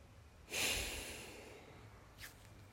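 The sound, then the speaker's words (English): A deep breath is let out slowly, one soft, airy exhale that swells quickly and fades gradually over about a second, followed by a brief faint puff of breath. “Take one more deep breath in. Hold and then let it all go.”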